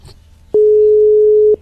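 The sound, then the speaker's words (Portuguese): Telephone ringing tone while a caller waits for someone to answer during a radio program: after faint background noise, a single steady, unwavering tone sounds loudly for about one second, then stops. “Então, bora lá, Irmã Sartotti, ver se ela vai atender agora.”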